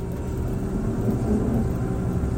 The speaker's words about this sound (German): Wieder im Überlandbus unterwegs mache ich mich auf den Weg in den Osten der Insel, nach Port d'Alcudia.